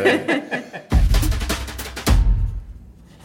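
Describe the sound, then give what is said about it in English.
Pen strokes scratch across paper as a cartoon face is drawn, coming in a couple of dense bursts of scratchy friction after a quieter opening, then fading to near silence. “what I'm drawing is a kind of bemused expression”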